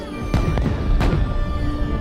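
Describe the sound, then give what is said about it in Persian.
Fireworks going off: two sharp booming bursts about half a second apart, the second slightly stronger, over a steady tonal background. “آتیش بازی قشنگی با انداختی.”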